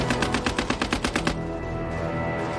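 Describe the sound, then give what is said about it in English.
Rapid machine-gun fire from a Lewis gun, the light, compact First World War weapon rated at 600 rounds per minute. A loud, evenly spaced burst of many sharp shots stops abruptly partway through, leaving a dull residual rumble. “The Australians have one Lewis gun for every 10 men. A potent open warfare weapon that is light, compact, and can fire 600 rounds per minute.”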